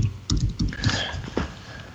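Several sharp clicks of keys on a computer keyboard as a short search word is typed, a few quick taps in uneven rhythm, fairly faint.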